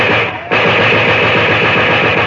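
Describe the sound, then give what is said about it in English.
Dense, continuous machine-gun fire with scattered shots during a police raid in a race riot, a loud, unbroken clatter that dips briefly before resuming at full strength. “Groups of the Negroes huddled behind barricaded doors answer the machine gun fire with two or three scattered shots.”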